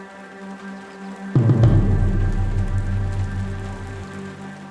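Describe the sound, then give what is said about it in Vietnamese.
Light rain begins to patter, starting suddenly after a quiet, low hum. It then keeps up a steady, dense fall of drops with no voices. “Trời bắt đầu đổ mưa tí tách.”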